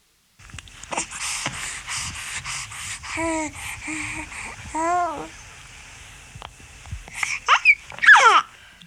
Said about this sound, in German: Es klingt schön, wenn ein Baby seine ersten Gurrlaute hören lässt. Wenn dann das Brabbeln dazukommt, entstehen richtige Geschichten.